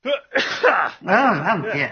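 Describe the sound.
A person sneezes in a sudden noisy burst, followed straight away by a voice talking.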